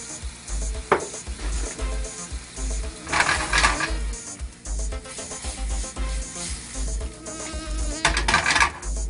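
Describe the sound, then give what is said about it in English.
Sauce simmers in a pan on the stove, seasoned with black pepper and salt: a steady sizzle and bubbling, broken by a few louder bursts of crackle. “Turn down the fire a little bit, let that simmer.”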